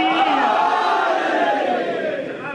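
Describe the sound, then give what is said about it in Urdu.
A crowd with hands raised chants the religious slogan Naara-e-Haidari. Many voices join in one loud, sustained unison swell that slowly eases off toward the end. “دونوں ہاتھوں کو بلند کر کے لگا دیں نعرہ حیدری”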